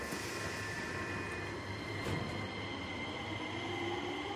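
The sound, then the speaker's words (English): Subway train pulling out of the station, a continuous low rumble with a droning hum and a thin high whine running steadily throughout, with no voices. “Clutching the bag, she dashes onto a subway train, which then pulls out of the station.”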